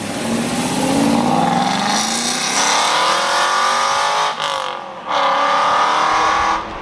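A car engine revs up and pulls away, its loud hum climbing steadily in pitch, then briefly dropping twice, like gear changes, before the drone carries on steadily.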